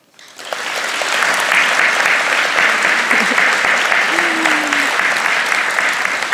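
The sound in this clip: An audience at a talk on libraries breaks into applause to welcome a speaker, the clapping building quickly from silence into a full, dense, sustained roar of many hands that holds steady to the end.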